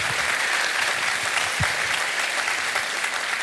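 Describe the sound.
An audience gives a guest a loud welcome with dense, steady applause that keeps up at an even level throughout.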